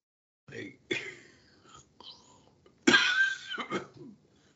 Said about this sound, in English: Excuse me. Sorry, I don't have a cough button.